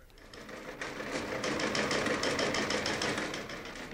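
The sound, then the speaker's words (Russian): A ship's telegraph apparatus is switched on and runs with a rapid, steady mechanical clatter over a continuous whirring hum. The sound rises slightly after the start and holds at a fairly even level to the end. “Включаю корабельный телеграф.”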